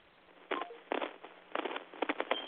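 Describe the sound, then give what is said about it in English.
Telephone keypad tones as a number is dialed, a few short bursts of beeps in uneven rhythm, some with clear pitched tones, alone with no talk. “Okay, call in the show. Yes, sir. Dial the show.”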